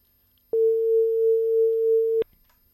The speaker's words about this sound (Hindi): हम तो आपकी आवाज़ पहचानते हैं, और फिर से आपकी कॉल कट गई।